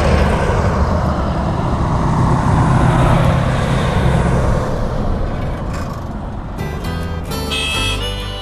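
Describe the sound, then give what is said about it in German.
A car driving past on a lonely mountain road in New Mexico: a loud, broad engine and tyre roar that holds for about five seconds, then fades away into a quieter background hiss. “Und ab und an fährt ein Auto vorbei. Oder auch mal zwei.”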